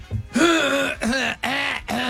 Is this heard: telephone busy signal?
no